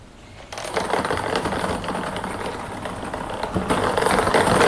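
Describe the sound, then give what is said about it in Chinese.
A lottery drawing machine for a seven-digit sports lottery draw in Jiangsu starts up and spins its numbered balls, giving a sudden, steady, dense clattering rattle under an even mechanical whir. “那么接下来我们就将正式开启本期江苏体彩7位数的直播摇奖，请工作人员启动摇奖机。”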